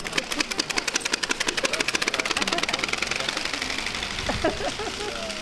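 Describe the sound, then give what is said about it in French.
A motorcycle engine runs with a rapid, even stream of knocking pulses, sharply chopped at first and then blurring into a steadier rattling drone. “Ça fait du bruit. Là, c'est le son de la moto.”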